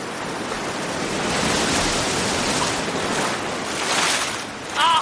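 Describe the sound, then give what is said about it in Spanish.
Waves break against rocks on a beach in a steady, loud surging roar that swells around the middle and again near the end. “Las olas rompen contra las rocas sobre las que se entretiene Marcial”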